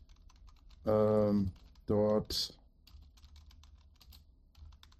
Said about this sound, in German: Du hörst das Getippe im Hintergrund.